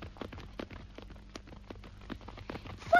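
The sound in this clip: A horse's hooves clip-clop in a steady, even rhythm of many faint, hollow knocks that grow a little louder at the very end.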